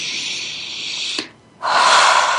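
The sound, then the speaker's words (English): A deep breath: a long, airy rush of air, a brief near-silent pause, then a second, louder and fuller rush of breath that tapers off. “Take a deep breath.”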